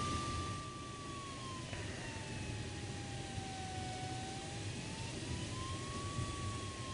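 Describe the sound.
A motor glider engine drones steadily in flight, a broad rushing roar with a thin tonal whine that sags lower, then climbs back up as more throttle is given.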